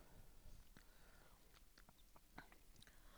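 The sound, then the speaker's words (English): Chewing on a bite of an Unreal candy bar with peanuts and nougat: faint, soft crunches and mouth sounds repeating irregularly many times at low level. “My second bite, I got a little bit more into it. It tastes a little bit more like Snickers.”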